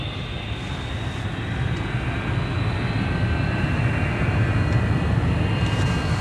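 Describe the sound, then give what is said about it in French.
Airplane taking off down the runway: a steady, powerful engine roar with a high whine above it, holding level and growing slightly louder toward the end, with no talk. “Ça y est, on décolle. Enfin, j'espère.”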